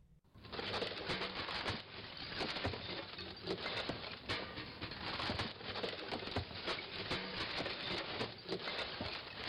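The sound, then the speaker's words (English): Compost and recyclables dumped into a campus garbage bin make a loud, dense clatter and rustle, with many small impacts running continuously from start to finish. “This is the sound of compost and recyclables going into the garbage.”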